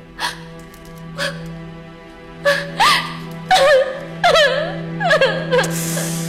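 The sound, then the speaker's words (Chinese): A woman cries, sobbing in many short, gasping bursts with wavering, whimpering pitch that grow more frequent and strained as the sobs continue. “你别哭了，你呀，真是的，别哭了”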